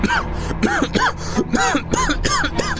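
Coughing and throat clearing after choking on a piece of chocolate: many short, voiced, hacking bursts follow one another in quick, uneven succession.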